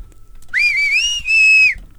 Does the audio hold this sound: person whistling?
yes